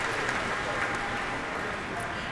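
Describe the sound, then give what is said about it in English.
A concert audience at an outdoor pavilion in a park applauds steadily as a pianist is called back to the stage for another bow, a sustained, even wash of clapping at moderate level. “The audience recalling Michelle Kahn back to the stage for another bow.”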